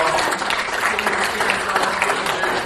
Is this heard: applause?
yes